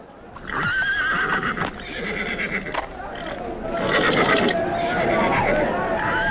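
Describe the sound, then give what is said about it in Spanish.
A young horse neighs loudly and repeatedly while being broken in Morelos, with whinnies over clattering hooves and people's voices beneath throughout. “Pegado parecía al animal que reparaba como el mismísimo demonio. Pero mientras él domaba al potro”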